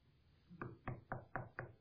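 Knocking on the front door of a house: five firm, evenly spaced raps in quick succession against a quiet background.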